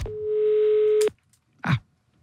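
A telephone ringback tone sounds on an outgoing call: one steady, mid-pitched tone lasting about a second, then silence and a short dull thud.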